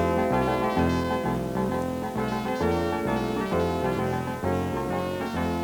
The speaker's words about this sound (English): every week we listen to that super fabulous radio show, Reading and Writing and Radio. Here's a tape of their silly theme song.